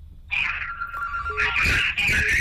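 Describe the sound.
A telephone rings for an incoming call, with bright, steady electronic ringing tones that start abruptly and continue over a constant background hum.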